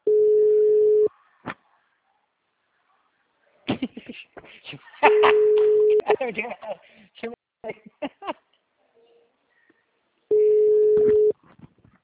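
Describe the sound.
A telephone disconnect tone after the caller hangs up: a steady mid-pitched beep of about one second sounds three times, several seconds apart, with a person talking between the tones.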